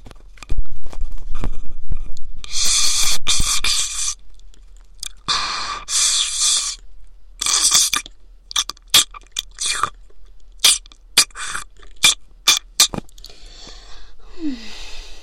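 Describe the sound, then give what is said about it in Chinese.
Wet slurping and crunching noises of brains being sucked through a straw pushed into a human ear, a gory effect. Several long, noisy slurps give way to many short, sharp clicks and pops. “从你的耳朵里吸脑浆，味道应该更好吧？就用这根吸管好了，从你的耳朵里插进去。”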